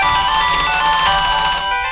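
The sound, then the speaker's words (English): A phone rings with an electronic ringtone, a loud, steady tonal pattern that plays alone and eases off slightly at the end. “Well, that's your phone. Somebody better answer that.”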